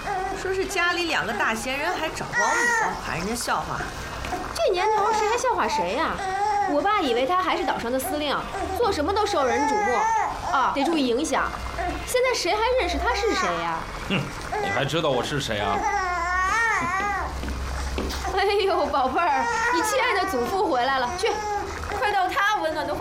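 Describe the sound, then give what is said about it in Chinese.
A baby cries at home, wailing in high, wavering bursts that keep coming back, while adults talk over it and one voice tries to soothe the infant. “他怎么老哭啊？ 你别说他，你小时候也是这么哭大的。”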